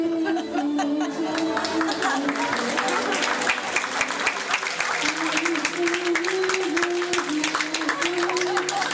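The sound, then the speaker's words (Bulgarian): Enthusiastic audience applause at a concert for four young Italian performers, with dense, steady clapping throughout and crowd chatter and voices mixed in. “Иначе всичко останало бяха нашите ръкопляскания.”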